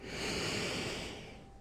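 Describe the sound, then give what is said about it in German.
A short inhalation during a guided breathing exercise: a soft, breathy rush of air that swells quickly, then tapers off gently, quiet and heard alone. “Machen wir das noch einmal. Kurzes Einatmen”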